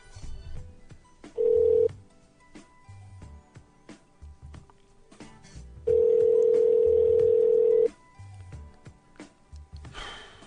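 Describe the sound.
Answering machine beep followed by a telephone redial: two steady, mid-pitched electronic tones, a short beep and then a longer tone of about two seconds, with quiet clicks and handling noise between and after them.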